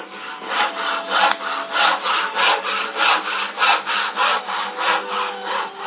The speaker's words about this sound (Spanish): Con el serrucho, claro que sí.